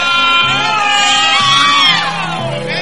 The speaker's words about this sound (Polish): Słychać krzyki. Ciekawe, kto tak krzyczy.